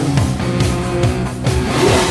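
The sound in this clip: A 1972 Lamborghini engine with mechanical trouble gives a loud, throaty low rumble with steady tonal drone and a few brief surging pulses, heard alone without voices.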